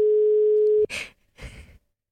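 A steady telephone tone sounds while a mobile call is placed, holding for under a second before cutting off abruptly, followed by soft breathy noises.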